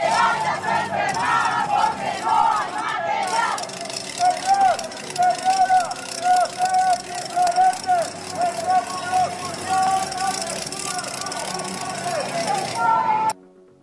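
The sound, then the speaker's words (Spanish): IMSS workers protest in the streets of Xalapa, a crowd chanting and shouting in loud rhythmic bursts over engine noise before the sound cuts off abruptly. “De esa forma, bueno, pues el IMSS Delegación Veracruz Norte se suma a esta serie de protestas a nivel nacional y así fue como se escuchó en las calles de Jalapa.”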